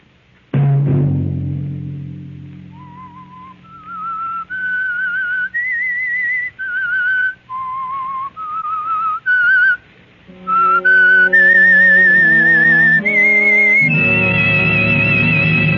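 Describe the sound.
A lone whistled melody, the eerie signature tune of the Whistler mystery-drama series, moves through a string of held notes that step up and down. It is clear and prominent, with a low chord joining near the end.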